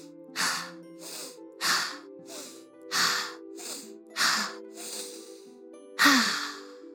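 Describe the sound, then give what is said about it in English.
Slow, deep breaths for a calming breathing exercise: five evenly spaced sighing exhales over soft, sustained music. “Let's try breathe 5 times. Breathe 5 times.”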